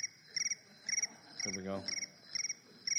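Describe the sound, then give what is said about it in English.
A cricket-chirping timer alarm sounds as steady, high, pulsed chirp bursts about twice a second. The chirps are faint, and a man briefly speaks over them midway. “That lets me know I have 5 more minutes. So you can wait for the crickets.”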